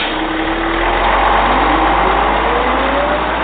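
Car engine of the Black Mobile running: a loud, continuous low rumble whose pitch climbs gradually as it revs up, with no voices over it.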